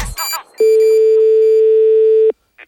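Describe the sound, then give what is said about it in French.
A telephone dial tone sounds as a line is reconnected: one loud, steady, unbroken tone lasting under two seconds, preceded by a short burst of other sound. “ce que je vais faire, c'est que je vais déjà vous rétablir la ligne. Voilà.”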